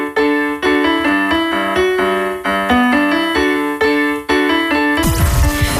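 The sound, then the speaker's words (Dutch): A child's toy piano plays a quick tune of bright, bell-like notes in a steady, bouncy rhythm, cut off at the end by a short burst of harsh noise. “Hey, ik speelde net iets op mijn kinderpianootje, dat klonk zo.”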